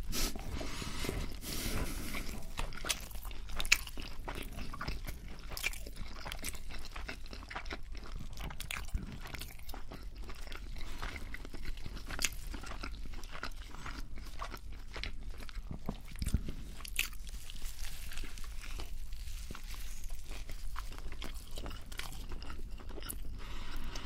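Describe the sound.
Biting and chewing on a Burger King meal: many crisp, crunchy bites and moist chewing sounds pile up in a steady, irregular stream, with no voices and a constant low background.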